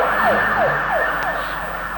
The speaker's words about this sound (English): That's a hospital ambulance. Let's see. Must be a wreck out. That's both of them.